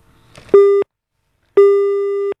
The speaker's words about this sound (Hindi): लगता है हमारी कॉल जो है वो डिस्कनेक्ट हो गई है।